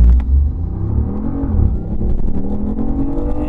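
A sports car's engine roars as it launches hard from a standstill in sport mode with traction control set, the revs climbing loudly, dipping briefly, then rising again into a sustained deep rumble.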